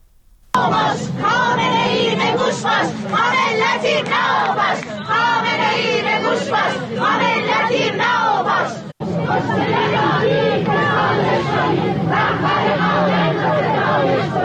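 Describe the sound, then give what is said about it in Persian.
Funeral mourners in Sanandaj, Kurdistan, chant protest slogans against the Islamic Republic and its leader. The massed chanting is loud and rhythmic, with one short break partway through. “در مراسم خاکسپاری اونها حاضران شعارهای اعتراضی علیه حکومت جمهوری اسلامی و رهبر جمهوری اسلامی ایران سر دادن. الان میتونیم صدای تعدادی از اونها رو بشنویم.”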